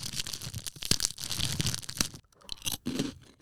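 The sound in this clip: Loud, brittle crunching as someone bites into a large rice cracker about 7 cm across, mentaiko flavoured, with dense crackles and a short pause before more crunching and chewing.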